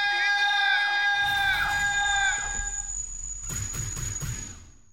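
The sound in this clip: Studio audience cheering and screaming as the hosts are introduced, a loud continuous wash of shrill whoops and yells that holds steady before thinning out and fading at the end.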